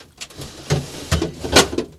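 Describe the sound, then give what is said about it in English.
A drawer stocked with beer is opened and closed, giving a few sharp wooden clunks and knocks with rattling contents and short scraping slides in between. “This is the sound of the drawer.”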